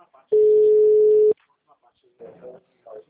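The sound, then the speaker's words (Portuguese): A dropped phone call sets off a single steady, mid-pitched telephone tone that holds for about a second, then stops; short bursts of talk follow. “Oi, a ligação. Caiu. Foi, sem querer.”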